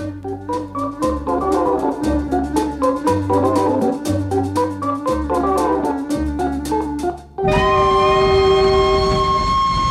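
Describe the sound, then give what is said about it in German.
A locomotive clatters along in a steady rhythmic beat, then its whistle cuts in as a long, loud, sustained tone that holds to the end. “Hören Sie, meine Herren, hören Sie den Pfiff der Lokomotive. Welch lieblicher, welch erhabener Klang.”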